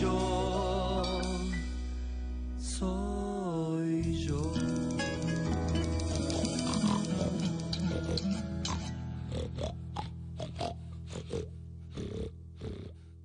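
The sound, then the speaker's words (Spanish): A pig oinks and snorts, with many grunting calls repeating over a dense, continuous backdrop of layered tones and occasional light tinkling. “porque ahora el chancho.”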